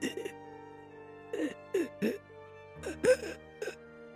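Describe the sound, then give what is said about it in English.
A voice imitates a man coughing up blood, giving several short, wet, guttural hacking bursts separated by pauses over a low steady hum. “and he begins to cough out blood.”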